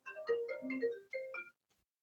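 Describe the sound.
A phone ringing with a faint melodic ringtone: a short run of tonal electronic notes lasting about a second and a half, then stopping.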